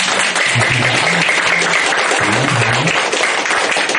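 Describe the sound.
Audience applause fills a Vu Lan gathering at a Buddhist temple: a loud, even wash of many hands clapping, steady from start to finish, with a voice briefly audible beneath it.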